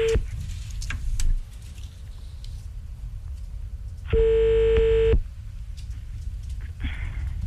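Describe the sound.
A telephone call is dialed, with a loud steady line tone lasting about a second in the middle, set against a faint continuous tone and soft low background noise, with no speech.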